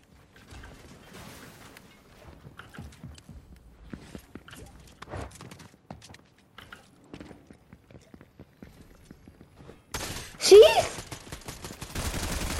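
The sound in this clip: Gunfire from a pistol-only shooter video game. Quieter clicks and mechanical sounds build up to a sudden loud burst of shots near the end.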